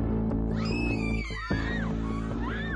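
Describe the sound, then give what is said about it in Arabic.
A terrified scream, high and wavering, sustained over steady background music. It dips briefly midway, then resumes with shifting, quavering pitch. “وارتفع صوت صراخ مروع”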